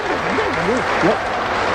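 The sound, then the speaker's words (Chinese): Audience applause at a crosstalk comedy performance, a steady, fairly loud wash of clapping that runs the whole time while a performer's voice rises and falls over it. “我说男同志，您给鼓鼓掌得了，我汗都下来了。”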